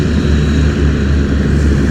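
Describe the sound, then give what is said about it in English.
A hovercraft's loud propeller and engine roar fills the short stretch as a dense, steady low drone with no break, the craft moving quickly across the water. “Oh, there goes the hovercraft very quickly.”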